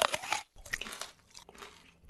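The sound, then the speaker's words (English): Someone bites into a candy apple with a crisp, loud crunch, then after a short pause keeps chewing with softer crackling crunches. “Oh, this thing is delicious. What's it called? It's a candy apple.”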